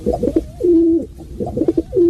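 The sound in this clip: A pigeon cooing in two low, throaty phrases, each a quick run of pulsing notes that settles into a held, droning coo.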